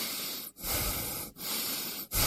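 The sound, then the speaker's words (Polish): Rhythmic human breathing, in and out as if on command, heard as long airy rushes broken by three brief pauses. “Proszę oddychać.”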